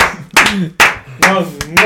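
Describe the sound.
Hand clapping in a few sharp, separate bursts, mixed with lively voices talking and laughing between and under the claps.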